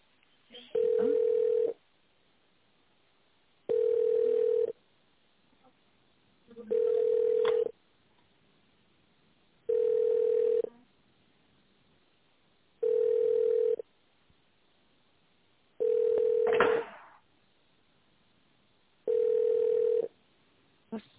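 Telephone line tones while a call is transferred: seven evenly spaced, steady mid-pitched beeps, each about a second long, with quiet gaps of similar length between them. They have a narrow, phone-line quality.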